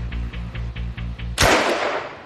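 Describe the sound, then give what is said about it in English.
A Sten submachine gun firing: a run of regular low thumping pulses, then a sudden loud, sharp gunshot crack that rings off into a fading noisy tail. “Sten guns were simple and cheap to manufacture and put an automatic weapon into the hands of soldiers, greatly increasing the short-range firepower of the infantry.”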